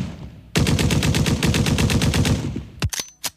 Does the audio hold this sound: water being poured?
no